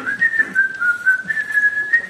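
A man whistles a melodic tune in a garage, a clear, fairly high, continuous line with gentle wavering and small pitch steps, heard alone without talk.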